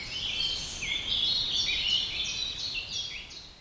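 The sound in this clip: Birds sing in the treetops of an old oak in spring, in May. Faint, high-pitched twittering and chirps run continuously over a low, steady background hiss.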